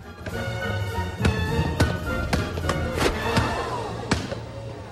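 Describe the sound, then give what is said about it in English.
A basketball is dribbled through a player's legs, giving a series of sharp, hollow thumps in an uneven rhythm, several close together, with a dull hum underneath. “Mike bounces the ball through his legs”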